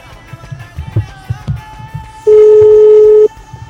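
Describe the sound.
A telephone ringing with an incoming call in a studio: one loud, steady, single-pitched tone lasting about a second, rising out of faint background noise.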